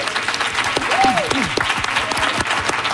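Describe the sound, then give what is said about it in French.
A live audience of about a hundred people in the Radio-Canada atrium in Montreal claps and cheers. The clapping stays dense and continuous, with a voiced shout rising briefly over it. “Les gens que vous entendez, c'est parce qu'aujourd'hui, on vous présente une émission spéciale d'apéro public du dimanche devant une centaine de personnes rassemblées dans l'atrium de Radio-Canada à Montréal.”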